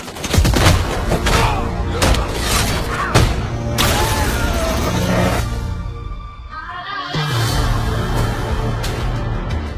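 Loud, dense gunfire erupts in a film drama after an order to open fire. Overlapping volleys and heavy booms fill the scene, ease into a brief lull, then resume.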